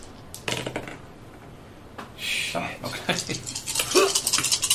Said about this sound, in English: Did you really just roll all those dice?